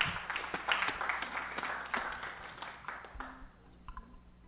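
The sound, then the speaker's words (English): Audience applause welcomes an American folk duo from Seattle, Washington: dense, busy clapping slowly thins out and fades, leaving a few scattered claps at the end. “Give a nice welcome back from Seattle, Washington.”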